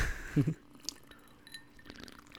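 A glass holding a little leftover liquor is rattled, giving a short burst of clinking and sloshing at the start, then a single faint click, followed by quiet.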